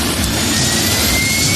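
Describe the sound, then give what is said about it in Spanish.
Steady, loud rotor-and-engine roar of a helicopter flying over the 1993 Vuelta a España cycling race, continuous and unbroken throughout with no voices. “Un gran despliegue de medios. Helicóptero.”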